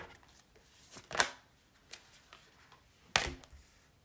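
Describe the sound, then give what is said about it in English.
Cards from an animal-themed oracle deck being shuffled and pulled: two faint, brief papery riffles and a smaller rustle between them, heard alone against a quiet background. “I'm pulling some cards from the Spirit Animal Oracle. I'm not sure what these are for, but I just felt called to pull these cards.”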